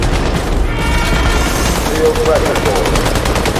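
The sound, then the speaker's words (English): Rapid turret gunfire in a video game: loud, continuous automatic shots hammer on in a fast, dense stream without a break. “This guy's got a turret. Speaking of turrets...”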